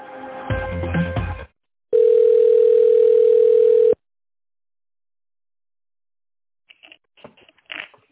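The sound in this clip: A telephone ringback tone sounds while a call is transferred: a steady, single-pitched hum lasting about two seconds. A short burst of other sound comes before it and a few faint scattered sounds follow.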